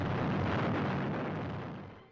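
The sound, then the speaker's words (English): An atomic bomb test explosion at Maralinga sounds as a loud, continuous deep roar and rumble. It holds steady, then gradually fades away over the last second. “Patterns of tracer rockets crisscross the impressive and symmetrical atomic cloud formation, playing their part in the scientific record of the burst.”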